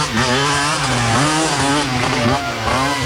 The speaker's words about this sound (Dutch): Er kwam weer zo'n aso voorbij. En toen voelde ik een woede opkomen. Ja, het klonk ongeveer zo in die motor.